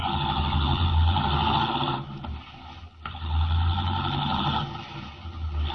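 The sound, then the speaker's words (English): A car engine in a radio drama effect as the car drives rapidly away: a steady, loud mechanical drone, briefly dipping midway before resuming at full strength and easing slightly at the end. “Leaving the Teufel standing in the road, Henry Miller, the Atom Man, drives rapidly away.”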